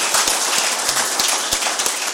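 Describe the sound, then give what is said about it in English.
Applause from a group at a recovery meeting, a dense, steady patter of clapping hands that runs through the whole moment with no pauses. “And how about another round of applause for Nicole? Way to go, Nicole.”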